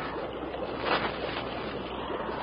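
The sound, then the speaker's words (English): Steady rushing roar of a swift river current running toward a waterfall ahead, a dense, unbroken wash of noise with a slight swell near the middle and no voices. “Sounds like a waterfall somewhere ahead.”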